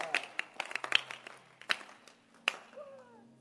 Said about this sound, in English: Can you clap your hands? I'm excited.